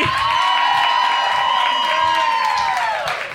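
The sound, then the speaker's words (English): An audience cheers and applauds for a group of hosts and producers, with steady clapping under a sustained high whoop, staying loud and even for about three seconds. “give a big round of applause for your 3 other hosts and producers of SpecScript.”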